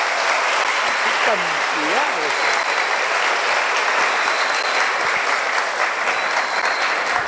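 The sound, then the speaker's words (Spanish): Steady applause from a church audience at a Catholic gathering, a dense, even wash of clapping that holds at the same loudness for about seven seconds with no break. “Y ahora un aplauso para ustedes mismos,”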